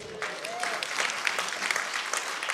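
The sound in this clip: An audience claps to welcome a man to the front: dense, even applause from many hands that holds steady throughout, moderately loud.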